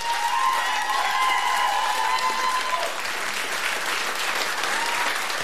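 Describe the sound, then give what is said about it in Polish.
Dense, steady applause from a radio studio audience gives a standing ovation after a band's live concert set. The clapping stays full and even throughout, with no talk over it. “Panowie, standing ovation.”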